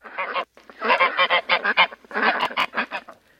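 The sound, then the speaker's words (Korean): Geese honking and hens squawking in a farmyard commotion, with many loud, overlapping calls in quick, uneven bursts and only brief pauses. “암탉들이 계속 소리를 질러댔다. 거위들도 몰려들어 술렁거렸다.”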